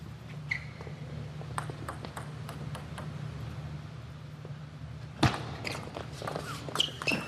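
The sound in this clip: Sharp, light ticks of a table tennis ball during a professional rally that ends with the ball clipping the net. Several spaced clicks sit over a steady low hum, with one louder knock near the end.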